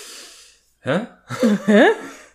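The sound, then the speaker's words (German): Noisy breathing from a person: a soft exhale, a pause, then a sharp gasping intake followed by two wheezy, voiced breaths with rising pitch, loud and close with no talk over them. “Ich atme geräuschvoll, sei ruhig.”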